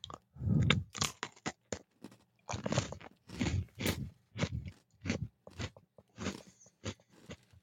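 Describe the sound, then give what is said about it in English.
A summer-flavor Oreo cookie with graham and marshmallow notes is bitten with a loud crunch, then chewed in many crisp, irregular crunches with short pauses between. No one talks. “So the cookie is still, it still has a distinctive Oreo taste. And the Oreo bite. It's got an Oreo snap”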